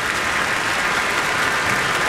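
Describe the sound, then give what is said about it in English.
Audience applause: a uniform wash of many hands clapping, steady and dense from start to finish without any pause. “they're applauding for you”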